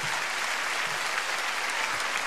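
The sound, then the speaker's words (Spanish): Steady applause from a crowd honoring rescued workers, a dense even clatter of many hands clapping throughout at moderate loudness, with no voices standing out. “Después aplauso grande para estos hermosos trabajadores de nuestra patria.”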